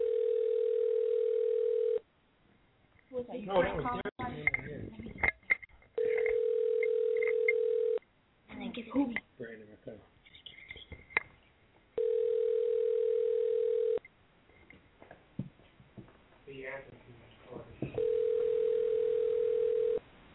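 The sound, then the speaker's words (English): Steady telephone tone after a caller hangs up, sounding in regular two-second bursts separated by gaps filled with chatter and background talk, the tone loud and even each time it returns. “He hung up. He hung up again.”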